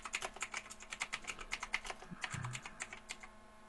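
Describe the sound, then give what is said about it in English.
Quick typing on a computer keyboard, many crisp, irregular key clicks in fast bursts, fairly faint and alone without talk. “So let me just type in.”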